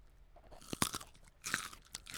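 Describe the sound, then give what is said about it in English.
Celery being eaten gives a few sharp, crisp crunches of chewing and biting, close and fairly quiet, with no talk around them. “So I'm currently eating a piece of celery. I've got a carrot. How does that sound?”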